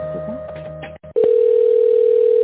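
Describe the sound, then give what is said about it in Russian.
A telephone tone plays while a call is transferred: a steady, unbroken single tone that starts after a short gap and holds loudly to the end, following some brief earlier sounds. “Соединяю вас с тендерным отделом.”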